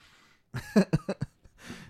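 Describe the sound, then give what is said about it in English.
A person snorting snot: a quick run of several short, thick nasal bursts, then a brief gap and one longer, softer snort, all heard alone without talk. “And no one heard that because I had to snort some snot.”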